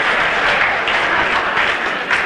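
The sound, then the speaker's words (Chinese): A stadium crowd stands and roars after a Chinese player's table tennis victory over a Japanese opponent, loud dense applause and cheering that holds steady throughout. “这是全场观众再次起立，为我们中国队员取得最后的胜利而欢呼。”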